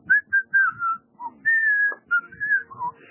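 A person whistles a melody alone: a string of clear, high notes, some clipped and some held, in short phrases separated by brief pauses.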